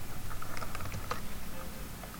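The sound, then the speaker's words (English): Rapid typing on a computer keyboard while entering a web search, heard as many quick, faint, uneven keystroke clicks in a steady patter with no talk. “and I'll type in water over fire”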